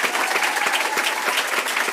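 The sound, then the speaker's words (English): Audience applause at a school board meeting, many hands clapping in a dense, even patter that holds steady throughout, with no voices standing out. “Let's give a big round of applause again for Mrs. Ramser.”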